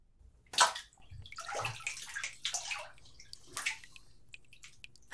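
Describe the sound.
Water fills a bath with sloshing, rushing splashes in irregular bursts. It stays fairly quiet, with a few louder surges and short pauses between them.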